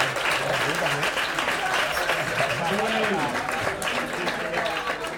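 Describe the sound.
Studio audience applause on a television variety show: continuous, dense clapping beneath a raised voice speaking over it for the whole stretch.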